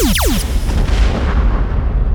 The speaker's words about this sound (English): Blasters engaged.